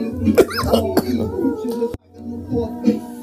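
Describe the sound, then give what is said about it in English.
A person coughing and choking: a few harsh, abrupt coughing bursts break up spoken words, with strained throat sounds between them. “Excuse me. I'm choking.”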